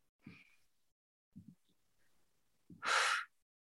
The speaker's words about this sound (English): A nice deep letting go breath.